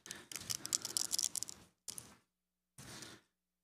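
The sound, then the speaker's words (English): Plastic wrapping crinkles as the bread is peeled from the top of a communion cup, in three separate crackling bursts: a long busy one, then two shorter ones with silence between. “If you haven't already, if you might want to unwrap the bread from the top of your cup. Be careful to not grab the whole thing.”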